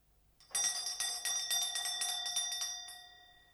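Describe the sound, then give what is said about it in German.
A tinny doorbell at an apartment door gives a metallic rattle: a rapid run of strikes with bright ringing overtones lasts a few seconds and then fades, with no talking. “Als die Klingel ihr blechernes Klappern hören ließ, bildetest du dir ein, es rege sich jemand im Zimmer.”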